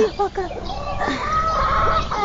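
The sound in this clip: Chickens cluck in short, repeated bright bursts early on, then a thinner, sustained call. People talk alongside them.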